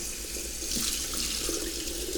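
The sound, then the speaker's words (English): Water runs steadily from a tap as an even, unbroken hiss that stays constant from start to end. It is fairly faint, with no voices. “so we'll turn on the water”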